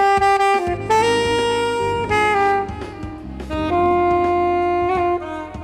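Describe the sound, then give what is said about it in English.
A solo saxophone plays loud, sustained notes with a rich, reedy tone, moving through a melodic phrase with changing pitches and brief dips between notes. “That's the sound of the saxophone”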